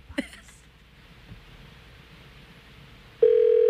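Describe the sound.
A telephone call being placed for a prank call: a faint click, then low line hiss, and a steady telephone ring tone that starts loud near the end and continues.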